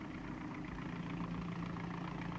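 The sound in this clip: A steady, low engine hum from the Spectrum Pursuit Vehicle of Captain Scarlet, kept hidden at a brewery, droning evenly throughout with no voices over it.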